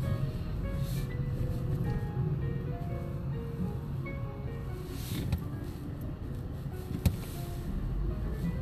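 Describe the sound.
Car driving over to West St. Paul, a steady low engine and road rumble that holds evenly throughout, with a single brief click standing out near the end.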